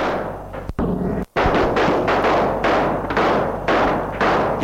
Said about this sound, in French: Elle tire dans tous les sens.